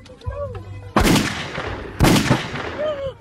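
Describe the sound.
Gunshots in a played video: two loud, sharp bangs about a second apart, each followed by a brief rumbling tail, with faint voices around them.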